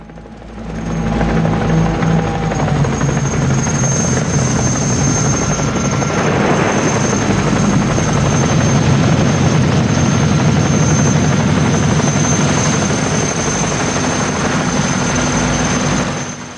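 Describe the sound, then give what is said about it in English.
Helicopters landing on a beach, their rotors and engines making a loud, sustained roaring drone that swells in after a brief quieter start and holds steady for the whole stretch. “The helicopters land on the beach and US soldiers pour out.”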